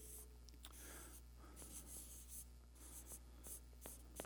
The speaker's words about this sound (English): there's a couple of words, three words that I'd like to write down up here.